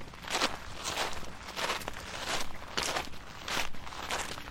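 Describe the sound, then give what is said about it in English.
Footsteps walking at a steady pace, a regular series of heavy, gritty steps, loud and alone with no talk over them. “Start walking, Chester.”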